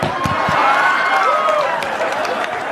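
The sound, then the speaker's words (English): Audience clapping mixed with whoops and cheers, loud and dense throughout, with rising and falling vocal calls running over the steady patter of hands. “I can't believe you clapped about that.”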